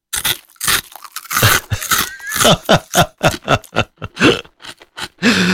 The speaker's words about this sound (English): That's me crunching a bacon fries. It's all over the microphone now.